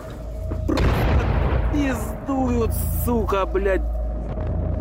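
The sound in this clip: A deep, loud boom of an explosion during shelling of a city at night, with a burning apartment building; the low rumble is followed by wavering, rising and falling cries over a heavy background roar.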